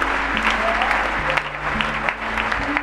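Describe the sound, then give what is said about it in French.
An audience applauds to acclaim Jesus in church, producing a continuous patter of many hands clapping at a fairly even level with small bursts of louder claps. “On peut acclamer Jésus.”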